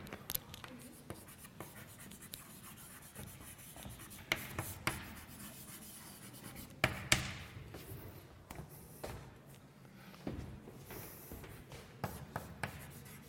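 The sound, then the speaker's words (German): Handwriting scratches and taps as a pen moves across a surface, with many quick, irregular strokes and occasional sharper knocks, faint and continuous throughout. “So, ich schreibe jetzt kurz, weil das Wort wahrscheinlich lang ist”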